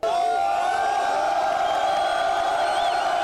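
Football fans celebrate Manchester City's 1-0 win over Inter in Taksim Square. A crowd cheers and whoops in a continuous loud roar with sustained shouted tones.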